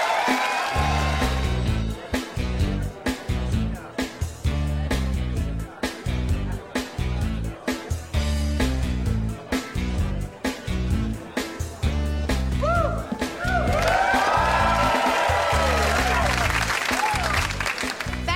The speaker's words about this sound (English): Now we cut to the school gym, and in comes Bud with Mindy.